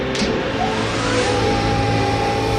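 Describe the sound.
A balancing machine accelerating during a test run gives a loud, steady mechanical roar with a whining tone that climbs in pitch early on, then holds at a constant, even level without voices.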